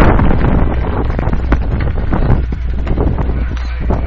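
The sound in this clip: Strong south wind buffets the microphone at a football game, a loud, continuous low roar and rumble with gusty flutter that runs steadily from start to end, with no talk.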